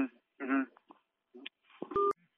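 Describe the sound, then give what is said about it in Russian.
Telephone keypad tones as a number is dialed on a phone: a few short electronic beeps near the end, preceded by brief muffled handling sounds. “Я сейчас отзвоню и скажу все.”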